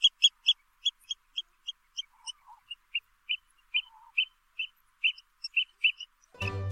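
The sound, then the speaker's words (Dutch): An oystercatcher calling: many shrill, high piping notes in a quick, steady series, with short pauses between some of them, ending in a brief burst of noise. “ik hou van het geluid van de schoolekster. Want als de schoolekster er is, dan piet. Dan begint het voorjaar.”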